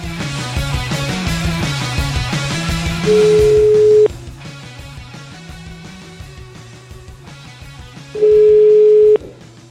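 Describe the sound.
Ringback tone of an outgoing telephone call: two long, steady tones of about a second each sit over loud, continuous background music.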